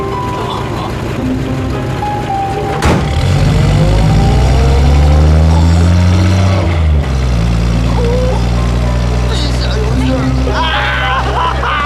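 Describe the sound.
A car engine hums and revs as the vehicle drives off in a Chinese drama scene. The motor tone is low and sustained, with clear harmonic bands swelling in the middle.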